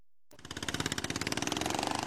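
A vehicle engine being driven fast: after a brief silence it starts abruptly into a rapid, rhythmic throbbing pulse that quickly grows louder and then holds steady.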